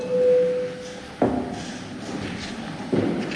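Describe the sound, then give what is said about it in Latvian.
A parliament voting system signal sounds as one steady mid-pitched tone lasting about a second, followed by two sharp knocks a couple of seconds apart. “Jā, tad līdzīgs tikai lūdzu zvanu balsosim par 17. Zaļo un zemnieku savienības frakcijas priekšlikumu. Lūdzu balsošanas režīmu.”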